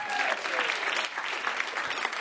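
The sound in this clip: Audience applause from people asked whether they watch the Super Bowl just for the commercials: dense, even clapping that carries steadily through the whole clip at a moderate level.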